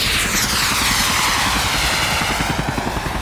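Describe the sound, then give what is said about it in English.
Two helicopter-like craft flying toward the listener make a loud, steady whirring with a rapid low rotor chop under a high whine. No voices are heard. “There's two copters, and they're flying right towards us.”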